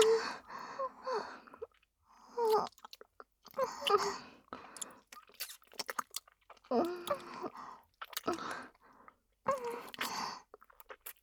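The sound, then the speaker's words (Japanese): Soft, wet kissing and lip smacks come in irregular clusters, mixed with breathy gasps and sighs, quiet and close, separated by short silences. “キスしたいよ。横からキス。”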